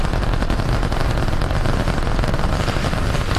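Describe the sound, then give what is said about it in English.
Roar of the Starship rocket launch near Brownsville, Texas, with all 33 Super Heavy engines lit on the world's largest rocket. A dense, continuous, loud rumbling blast with a crackling texture holds steady throughout. “As Starship is launched, it is the 14th test flight of the world's largest and most powerful rocket. A little more than 35 seconds into the flight, 33 out of 33 engines lit on Super Heavy.”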